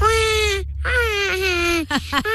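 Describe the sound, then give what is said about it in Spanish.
A baby cries in two long, wavering wails, then a few short broken sobs. The cries are loud and high-pitched with a bleating quality. “este es mi hermanita que es bebé. A ver. Así llora tu hermanita.”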